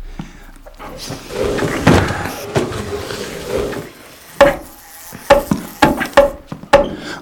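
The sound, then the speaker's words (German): A wooden coffin lid being put on: low rustling movement, then several sharp, hollow wooden knocks and thuds that come at uneven intervals as it settles into place. “Und jetzt den Deckel. Wenn ihr mir helft?”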